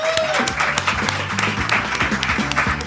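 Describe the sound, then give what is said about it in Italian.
Studio audience applause for guests who have come in: dense, steady clapping from a small group that holds at an even level throughout. “loro sono venuti, fatevi un applauso”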